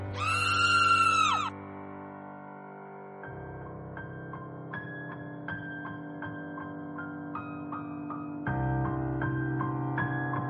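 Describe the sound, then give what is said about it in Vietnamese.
A piercing, high-pitched scream in a horror tale bursts out for about a second and a half and slides down in pitch at its end, then gives way to a low, sustained drone with soft melodic notes. “Bỗng dưng một tiếng thét thấu trời phát ra”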